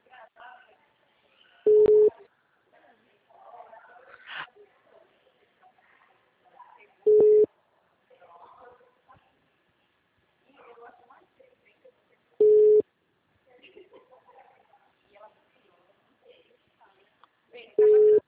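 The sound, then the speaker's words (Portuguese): Telephone tone on an engaged line: four loud, steady, mid-pitched beeps come at long, even gaps, with faint voices murmuring in between. “Ele tá em uma ligação, pelo jeito.”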